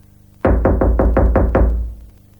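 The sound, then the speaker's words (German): Knocking on a house door: a quick run of seven evenly spaced, loud, booming knocks with a low, resonant thud, heard alone and fading briefly after the last blow. “Man klopft”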